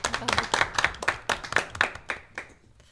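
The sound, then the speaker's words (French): An audience claps for a six-year-old girl with many sharp, fairly regular hand claps that loosen and thin out toward the end. “on applaudit très très très très très fort Ira”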